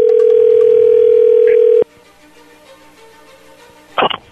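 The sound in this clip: Ringback tone of a telephone on an outgoing call, a steady, even single-pitched buzz lasting under two seconds before cutting off, then near silence and a brief soft noise at the end.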